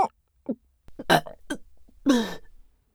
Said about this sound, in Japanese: かーやっべー、画面揺れちゃうくらいの爆音ゲップでした。